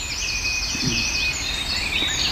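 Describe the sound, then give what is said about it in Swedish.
A European robin sings in winter in southern Sweden, a faint, high, thin warbling of trills and drawn-out notes over a low background hiss. “Det är bara en enda rödhake då som finns inom ett visst område. Och där sjunger alltså både hanne och hona då i någon gång i november, december kan vi höra dem.”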